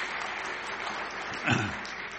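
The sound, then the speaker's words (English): A church audience applauds to welcome newcomers, giving a steady patter of clapping hands. A brief, slightly louder swell comes near the end. “Let's give them a hand.”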